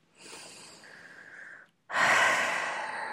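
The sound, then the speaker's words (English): A deep cleansing breath taken during a calming pause: a quieter airy inhale of about a second and a half, a brief silent gap, then a louder, rushing exhale. “So let's take a deep breath, very cleansing breath.”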